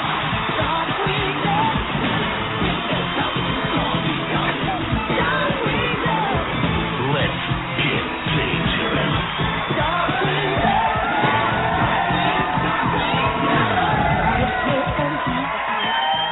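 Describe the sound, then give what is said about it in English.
A studio audience cheers loudly for a guest's introduction on an interview show, with whoops, yells and shouts rising out of a continuous roar of crowd noise. The sound is muffled and narrow throughout. “So ladies and gentlemen, without further ado, give it up for the one, the only Mr. Jim Cummings!”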